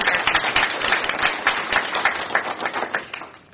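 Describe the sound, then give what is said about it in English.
Audience applause for campus grounds staff, dense and steady clapping that carries through the whole stretch before tapering off near the end. “And so I would like to all, if we can, just applaud them for everything they did to”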